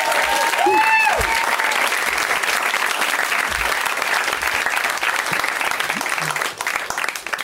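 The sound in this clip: Audience applause at a comedy show: loud, dense, steady clapping that holds at an even level for the whole stretch.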